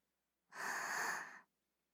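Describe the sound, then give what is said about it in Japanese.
A single slow, deep breath during a guided breathing exercise: one smooth, airy breath lasting about a second, set alone against silence. “ゆっくりと吐いて、ゆっくり吸って、”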